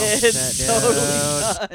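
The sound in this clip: A voice imitating air hissing out of a punctured car tire at a gas station: a steady, breathy hiss with a voiced buzz underneath, held for about a second and a half before cutting off abruptly.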